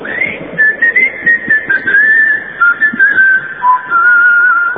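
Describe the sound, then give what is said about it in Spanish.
A human whistle call used to summon a group of friends: a loud, fairly steady high-pitched whistle sounded as a string of many short notes and a few longer held ones, with brief gaps between. “El tango ese que cuenta cómo había un chiflido para congregar a la barra.”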